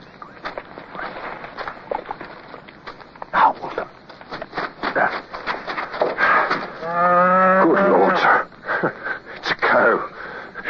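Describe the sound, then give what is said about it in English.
A cow moos in one long, low, steady call lasting over a second, surrounded by rustling, snuffling and shuffling noises before and after. “pass the word that there are cows about. If you and I almost took this one for the enemy,”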